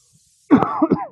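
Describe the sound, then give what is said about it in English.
One rough throat-clearing cough from a tickle in the throat, a short harsh burst followed by a brief second rasp, heard alone. “a little tickle in my throat. I took a little NyQuil hoping to suppress it. You pray for me. I don't want to distract you with coughing.”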